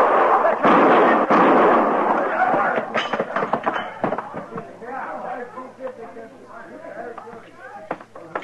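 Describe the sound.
Rifle gunfire in a western radio drama: loud booming blasts with a rolling rumble fill the opening seconds, then fade as men's voices talk.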